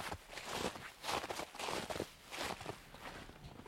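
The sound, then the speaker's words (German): Footsteps crunch through snow in a forest at dusk, a steady, even rhythm of soft, gritty steps that stay fairly quiet throughout, with no talking. “Ja, und es liegt Schnee, was man hier beim Laufen, glaube ich, ganz gut hört.”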